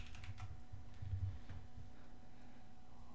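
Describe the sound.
Typing on a computer keyboard: a quick flurry of clicky keystrokes at the start, then sparser, softer taps over a steady low hum.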